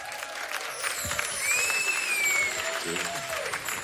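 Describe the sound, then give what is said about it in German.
An audience at a concert applauds a performer on stage, a steady, dense wash of clapping with crowd noise that holds at an even loudness throughout. “Leute, kriegen wir mal Applaus für meinen Bruder Kick.”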